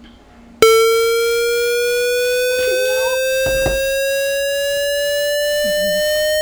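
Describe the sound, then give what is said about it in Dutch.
A loud, buzzy, hollow-sounding synthesized square wave tone starts abruptly after a brief quiet moment, then sustains steadily while its pitch creeps gradually upward. “Maar ik denk de holle toon. Een blokgolf of een square wave.”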